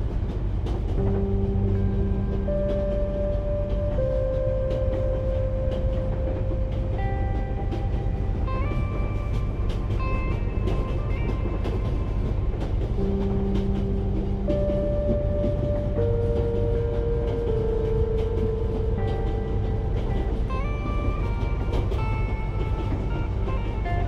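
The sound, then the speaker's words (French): A train rolls on its tracks at high speed on a long-distance journey, a steady, dense rumble that never lets up, with sustained tones shifting above it. “Le chuchotement du roulis du train résonne en vous comme un souffle régulier.”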